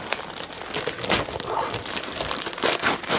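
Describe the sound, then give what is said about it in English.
Gift wrap being unwrapped from a stocking, a loud, continuous crinkling and crumpling of paper with crunchy rustles and bits of tearing throughout. “let's take a look at what I have gift wrapped in this stocking.”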